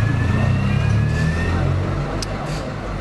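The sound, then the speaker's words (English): Car tires hiss and roar steadily on the road outdoors, a continuous low rumble of passing traffic with a broad noisy wash on top that eases slightly toward the end. “It's tires. That's annoying, that noise. You can tell we're outside.”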